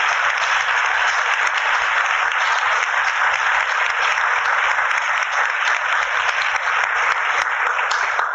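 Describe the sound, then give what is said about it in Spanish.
A crowd applauds steadily for an artistic mentor, an even, sustained clatter of many clapping hands at constant loudness with no pauses and no voices. “Yo creo que pediría un aplauso.”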